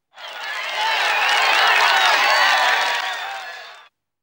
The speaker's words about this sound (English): The prisoners suddenly cheered with happiness.